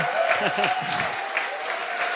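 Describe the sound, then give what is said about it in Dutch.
Audience applause welcomes two men onto a stage at a bilingual Dutch-English gathering: a steady wash of clapping that runs throughout, with a voice talking over it. “Could we put our hands together for Gerben Oost?”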